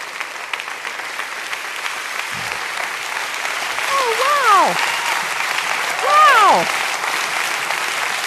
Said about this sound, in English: I am certain that a lot of that applause was for my husband of 35 years.